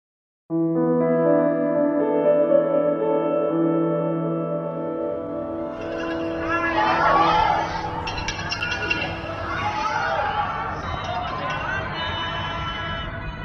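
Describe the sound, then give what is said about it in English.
A crowd in Wuhan, China, cheers for healthcare workers during the COVID-19 pandemic, starting with sustained, chant-like voices that swell into a louder, rougher mass of shouting and cheering. “That's the sound of cheers for healthcare workers in Wuhan, China, back in January.”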